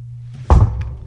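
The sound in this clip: A vending machine gives off a steady low hum, cut midway by a single heavy thunk, after which the hum carries on faintly.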